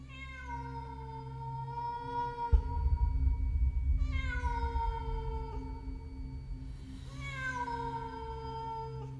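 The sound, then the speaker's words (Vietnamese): A cat meowing at night from a rooftop, a cry likened to a child weeping: three long, drawn-out wailing meows, each gliding downward in pitch, over a steady low hum. “Tiếng mèo kêu, nghe cứ như tiếng trẻ con khóc trong đêm.”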